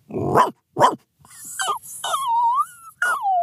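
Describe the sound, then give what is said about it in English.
A man imitates a dog, giving two short, rough barks followed by several high, whimpering whines that slide and fall in pitch, loud against silence. “some pretty awesome dog impressions in his toolkit”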